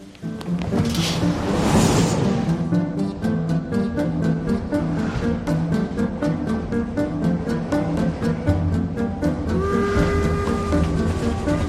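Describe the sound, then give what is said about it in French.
A train rumbles through a station packed with people in an animated film, with a steady, rhythmic clacking that repeats throughout. A sustained tone rises over it near the end. “C'est le moment où, où ils sont dans la gare, euh, la gare est surchargée de monde, et ils vont prendre ils vont pouvoir prendre le train.”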